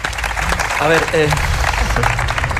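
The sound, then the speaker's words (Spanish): Audience applause at a drag performance, loud and continuous, with shouting voices rising briefly over the clapping near the middle. “El que no aplaude, no gesticula y no hace nada. Así que aplaudan, vamos.”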